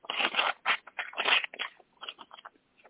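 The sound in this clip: A heavily glued, sealed envelope is torn open with effort in a series of rough, papery ripping bursts that grow fainter and more broken toward the end.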